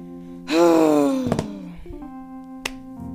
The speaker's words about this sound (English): I think that groan I just made literally, like, blew out my speakers, so, I'm sorry if that was really loud.